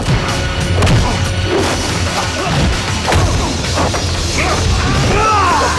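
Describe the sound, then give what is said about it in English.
Heavy thuds, whacks and smashes of punches and kicks in a superhuman fight, dense, loud and overlapping without pause throughout. “gets the better of him with his punches and kicks”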